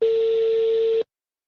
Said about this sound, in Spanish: Bien, espérate, estamos marcando a un number.